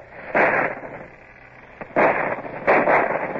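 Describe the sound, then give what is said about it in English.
Naval cannons fire from a sailing warship at a shore battery, three short, heavy booming blasts, the second and third coming close together. “Mr. Gerard, see if your guns can reach the battery and be sure they aim carefully. It's no good unless the embrasures can be swept. Stop the guns! Fire as your guns bear! Steady aim! Now!”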